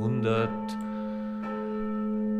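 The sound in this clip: Church bells ring from the historic city tower in Straubing, Bavaria, old bells recorded in 1967: a rich sustained humming tone rings on steadily, with a couple of fresh strikes adding brief brightness over the lingering resonance.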